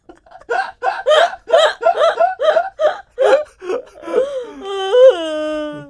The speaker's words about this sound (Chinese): 有人录 podcast 录到在哭啦！我的天哪！